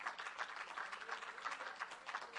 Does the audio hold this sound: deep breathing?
no